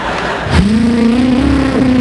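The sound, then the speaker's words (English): Car engine revving hard as the car speeds, a loud burst followed by a steady, rising engine tone that holds strong to the end, with no voices. “What the hell are you driving like a maniac for?”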